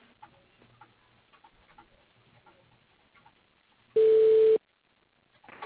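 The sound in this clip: A single steady electronic tone sounds on a telephone line as a call is transferred to voicemail. It lasts about half a second after a stretch of faint line noise, then quiet follows.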